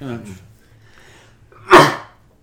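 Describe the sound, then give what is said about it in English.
A single loud, sharp sneeze bursts out abruptly after a stretch of soft speech, then fades quickly into silence. “had to sneeze. I'll edit that for out.”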